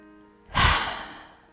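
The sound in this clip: One deep breath is taken during a group prayer, a breathy rush that swells quickly and then fades slowly, with no talk over it.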